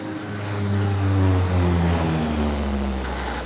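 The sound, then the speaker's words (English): A huge C-130 transport plane taxis down a runway and takes off. Its engines give a steady, loud, low drone with layered humming tones that swells slightly midway and holds, and no one speaks. “Seconds later, the huge C-130 taxis down the runway and takes off”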